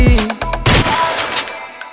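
A gunfire sound effect in a song: a rapid burst of loud gunshots, dense at first and then thinning into scattered cracks.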